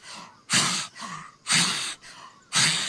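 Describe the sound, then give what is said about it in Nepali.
Rapid breathing in and out through an open mouth during a meditation exercise, with forceful, noisy exhalations alternating with softer inhalations in a steady, even rhythm. “फेरि मुख खोल्नुहोस् 30 पटक श्वास फाल्यो तानियो”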